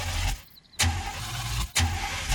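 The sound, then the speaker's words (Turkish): A car engine is being started, producing two abrupt surges of loud, rough engine noise. A brief dip in sound separates them. “Motorumla ilgilenebilirsin. Bu benim hoşuma bile gider. Neyse, hadi çalıştır bakalım.”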